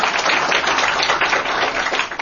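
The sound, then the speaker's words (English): Audience applause at a panel discussion event, a dense, steady wash of clapping that holds an even level throughout with no voices standing out. “You can clap. Thank you.”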